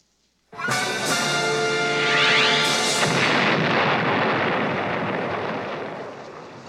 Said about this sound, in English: The hell was that? It wasn't me. The roof just blew off the Institute. It's on fire.